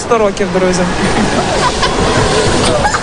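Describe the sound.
Water splashes in a swimming pool as a boy, prosthesis removed and goggles on, dives to the bottom; the churning wash runs steadily beneath loud, overlapping voices.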